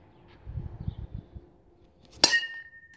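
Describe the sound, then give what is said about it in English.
Faint low thumps and rustling lead into one crisp metallic ping as a metal bat hits a wiffle ball. The ping rings briefly with a high tone, and there is no talk. “That was the sound of my dad hitting a wiffle ball with a metal bat.”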